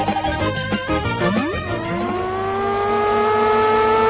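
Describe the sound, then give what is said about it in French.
A Formula One racing car engine from a Mega Drive video game by Domark: loud engine tones sweep upward in pitch twice as the car accelerates, then settle into a steady high whine. “Cette super course de Formule 1 réalisée par Domark n'est autre que l'adaptation sur Mega Drive de l'excellent Vroom”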